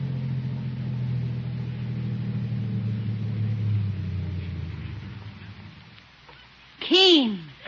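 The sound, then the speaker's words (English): A car pulling up and coming to a stop, its low engine rumble holding steady and then fading away as the vehicle slows, followed by a short, sharp tonal sound at the end. “In a car this color? Yes. Now, watch how smoothly it stops.”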